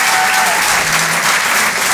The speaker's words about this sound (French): Merci de garder cette énergie, de faire un tonnerre d'applaudissements pour Antonia de Randinger.